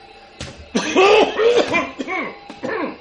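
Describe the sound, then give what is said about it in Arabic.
A man coughs in a loud run of harsh, throaty coughs, opening with a sharp burst and following with several rough, voiced hacks of uneven spacing. “ايه هو لما يكح يبقى عايزك؟”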